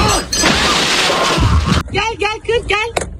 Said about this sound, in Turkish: Savurduğu tekmeyle aracın aynasını paramparça etti.